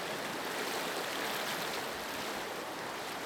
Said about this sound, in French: Dans l'eau du fleuve, Jean baptise des foules entières.